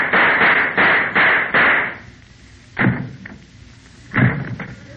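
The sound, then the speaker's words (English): Gunshot sound effects in a radio comedy sketch: a rapid run of about five sharp, evenly spaced bangs, then a pause and a few scattered, louder bangs and knocks. “Oh, for heaven's sakes, there goes our sketch. What happened? The two sound effects men shot each other.”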